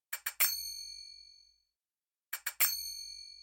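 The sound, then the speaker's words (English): Finger cymbals (zills) in a Middle Eastern music sample loop sound as two groups of three quick, bright metallic strikes. In each group the third strike rings out longest and fades before a silent gap. “known as zills. These small cymbals are worn in pairs around belly dancers' fingers and are used to accent and embellish the music they're dancing to.”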